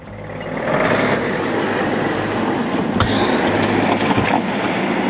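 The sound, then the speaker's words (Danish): Cars drive past reporters waiting outside Marienborg, giving a steady engine and road rumble that holds constant, with two brief sharp clicks near the end. “De kørte simpelthen lige forbi alle de der rapporter, der havde stået i timevis og ventet på dem.”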